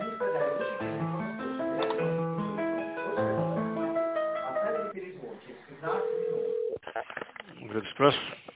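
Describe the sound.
Hold music with clear, steady notes plays over a narrow telephone line while an office call is transferred. A single sustained phone tone follows, and then a voice speaks.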